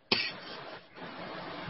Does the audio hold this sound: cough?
yes